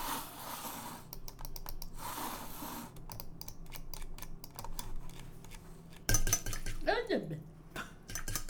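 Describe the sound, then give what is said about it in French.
Computer mouse clicks tap out a rapid run of small, sharp clicks, then a metal whisk used for whipping takes over with brighter clinks and a quick swirling sweep against a bowl. “Donc, je viens de la souris, avec le clic de la souris, et là je suis partie avec le fouet.”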